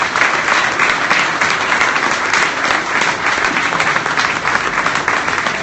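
Audience applause for the all-time top finish scorer coming on stage: loud, dense, sustained clapping from a crowd that continues without a break for the whole clip.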